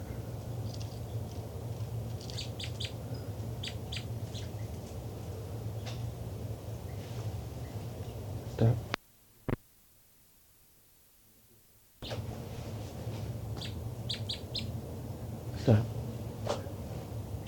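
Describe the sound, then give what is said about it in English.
Birds calling, with short, high chirps in scattered bursts over a steady low background hiss. The sound cuts to near silence for a few seconds midway, then the chirping resumes. “Both birds. It's recording the birds again.”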